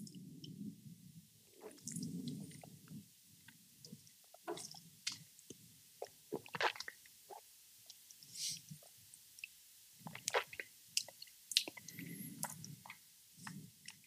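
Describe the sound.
Someone tastes a drink with quiet, wet mouth sounds: many soft smacks, squishes and slurping bursts in an irregular rhythm, with brief pauses between them.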